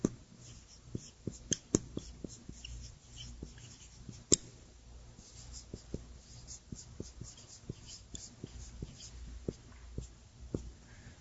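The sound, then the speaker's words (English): Writing on a board makes quiet, scattered scratches and small taps in an irregular rhythm, with a few sharper clicks standing out from a soft background hiss. “Maybe I should write that on the board.”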